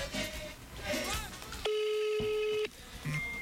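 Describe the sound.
A telephone tone while a call is being placed: one steady, fairly loud electronic tone holds for about a second, set between stretches of Spanish conversation.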